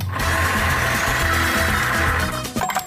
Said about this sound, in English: let's spin the random item generator and get something better than these things. Because these things kind of suck. Here we go.